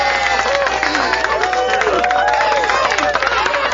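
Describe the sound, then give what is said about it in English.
Crowd noise from a live pub audience at Mix Pub and Grill in Willoughby, Ohio: a steady, loud mass of overlapping voices, shouts and whoops, with scattered claps and cheers mixed in throughout. “Got a live audience. Everybody, we're on live BBS Talk Radio. Everybody make some noise.”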